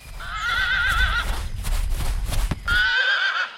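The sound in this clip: A horse whinnies twice, with long, wavering high neighs. Between the calls come hooves clopping and shuffling, and a low rumble sits under the first neigh.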